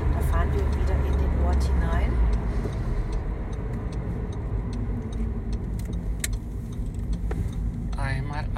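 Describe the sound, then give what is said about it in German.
A car driving along and turning left, its low engine and road rumble running steadily beneath a person talking, with a few light rattling ticks from the cabin. “So, ich fahre mal jetzt weiter hier links rein.”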